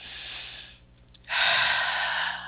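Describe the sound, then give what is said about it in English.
A deep breath: a soft, airy breathing sound gives way to a louder, sustained rush of air in the second half, with no talk. “So let's just take a moment to just take a deep breath.”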